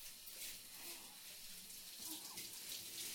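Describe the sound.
Soft, steady running water rinses a person's body during a bath wash. The flow is faint and continuous with small splashy fluctuations.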